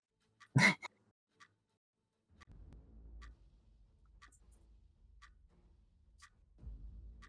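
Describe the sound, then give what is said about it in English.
Slow, steady ticking of a large machine in the center of a room in a fantasy tabletop role-playing game, about one faint tick per second, with a brief loud burst near the start and a low rumble rising beneath partway through. “cloaking this large ticking machine that is in the center of this room.”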